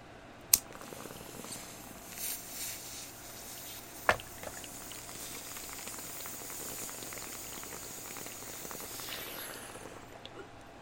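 Bong water bubbling while a bowl is smoked, a steady, faint gurgling hiss that runs throughout, broken by two brief, sharp clicks.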